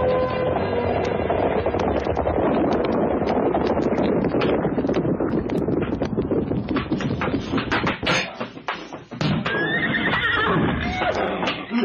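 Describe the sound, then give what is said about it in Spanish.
A herd of mares neighs and whinnies loudly and almost continuously as they come along a road toward a town square, with many overlapping high, shaky calls over a dense, rough background. “Sí, son ellas. Son las yegua. Voy a dejar que entren a la plaza.”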